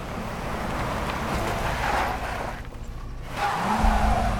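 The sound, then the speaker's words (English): A station wagon reverses onto a grass verge and then speeds off down a lane, kicking up dust and brushing foliage. A loud, steady roar of engine and tyre noise briefly dips midway, then swells again as the car pulls away. “Dust billows from the back wheels as the station wagon reverses onto a grass verge, then speeds off down the lane, rustling foliage in its wake.”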